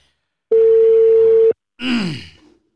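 A single steady, mid-pitched telephone ringback tone lasting about a second while a call is being placed, followed by a short groan-like vocal sound with falling pitch.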